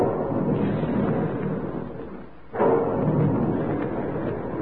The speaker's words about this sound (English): And there's the sound of the big guns in the Quaker plant, where they're making puffed wheat and puffed rice